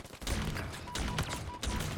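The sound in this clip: Gunfire in a Halo Infinite training-mode match against bots on a multiplayer map: a few loud, sustained bursts of rapid shots, each cutting in sharply and running on with little gap between volleys.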